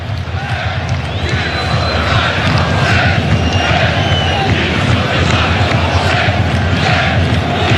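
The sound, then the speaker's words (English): Moroccan football supporters chanting in a stadium in Foxborough during a match against France: a dense, loud crowd roar that holds steady and unbroken throughout. “It's the sound of the Moroccan supporters.”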